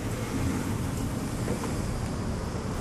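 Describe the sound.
Outdoor sound comes in through an opened door on the St. John's River: a steady, fairly loud rush of wind with a low engine-like rumble underneath, continuous and without distinct events.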